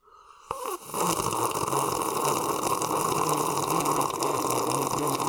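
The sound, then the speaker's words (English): Someone takes a sip of a drink of squash: a sudden sucking onset gives way to a loud, rough, continuous liquid noise that carries on steadily to the end. “Now, I'm going to have a little sip of blanc squash here”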